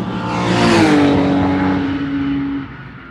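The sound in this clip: Car engine on a race track, droning as a steady tone that swells louder through the first second, holds, then eases off toward the end, with no voices.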